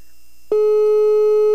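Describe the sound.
Ringing tone of an outgoing phone call: a single steady, mid-pitched electronic tone starts abruptly and holds unbroken to the end, loud and alone over a faint low hum.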